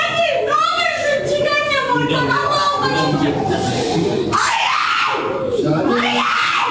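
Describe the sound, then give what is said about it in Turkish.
A grieving mother wails in a hospital corridor, her high, anguished cries rising and falling over the continuous voices of other people around her. “Acılı anne kendini yerden yere attı. Hastane koridoru feryatla yankılandı.”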